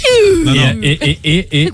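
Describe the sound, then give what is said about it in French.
A voice imitates a baby's cry with a loud wail that falls from high to low pitch, followed by three short, wavering, rhythmic bursts. “dites à quelqu'un que le bébé allemand crie de façon plus grave qu'un bébé français. Mais non, c'est pas plus grave. Il commence vers l'aigu, il finit vers le grave, ça fait...”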